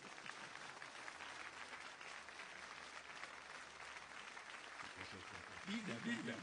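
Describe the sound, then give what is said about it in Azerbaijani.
An audience applauds again on request, a steady wash of clapping throughout, with a voice emerging over it near the end. “Bir daha alqışlayın.”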